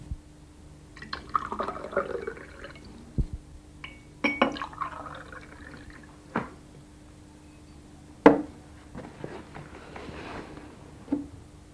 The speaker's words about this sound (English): Let me have some drink.